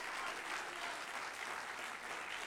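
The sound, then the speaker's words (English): A church audience claps hands in praise, a steady, even wash of applause that holds throughout at a fairly soft level. “If you done confess Jesus is Lord, give him a hand clap of praise.”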